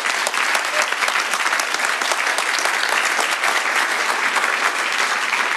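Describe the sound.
Audience applause welcoming newcomers, dense and steady clapping from many hands that stays at an even level throughout.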